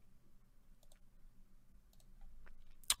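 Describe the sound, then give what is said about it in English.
Sharp clicks: a few faint taps, then one louder, crisp click near the end, all against a very quiet background. “There I click.”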